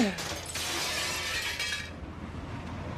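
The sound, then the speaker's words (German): Window glass smashed: a loud burst of shattering glass with a bright, crackling spray of shards that holds for nearly two seconds, then cuts off to a low, dull background with no talk. “Ich schmeiße euch die Fenster ein!”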